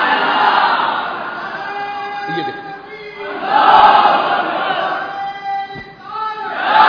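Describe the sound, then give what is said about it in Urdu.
A religious slogan shouted with fervour by a crowd at a gathering: loud surging shouts of many voices rise and fall in waves, swelling again toward the end. “نعرہ بھائی نے لگایا، بڑے جوش میں لگایا، یقیناً لگانا چاہیے، یہ صحابہ کی سنت بھی ہے اور یہ محبت کا اظہار بھی ہے”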